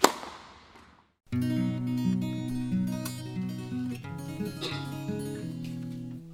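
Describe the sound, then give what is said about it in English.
A tennis ball is struck at the perfect point and speed: one sharp, crisp pop that fades quickly, then a short silence before sustained musical tones begin. “A tennis ball shot at the perfect point and velocity.”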